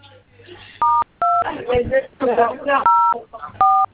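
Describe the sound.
Telephone keypad tones while dialing a service code: four short, steady electronic beeps, with a person talking in between.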